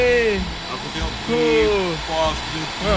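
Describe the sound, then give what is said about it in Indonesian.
An electric fan blows with a steady, even whoosh that runs under a man's voice as he talks throughout. “Oh, kipas sedap ni.”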